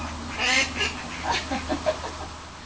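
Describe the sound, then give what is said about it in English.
Ducks quack while being fed, a few soft, nasal quacks spaced irregularly over low background noise. “Hey, good ducks. Hello. You grow so big now, you.”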